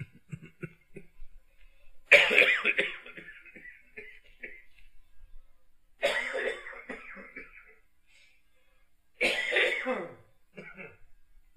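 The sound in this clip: Three bouts of coughing and throat clearing from a speaker with a throat problem. Each is a harsh, loud burst that trails off, and quiet pauses separate them.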